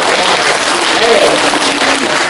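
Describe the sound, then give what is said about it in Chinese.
Loud audience applause at a stage comedy performance forms a continuous, dense, hissing wash of clapping that holds steady throughout without breaks. “鼓鼓掌好，天冷暖和暖和手。”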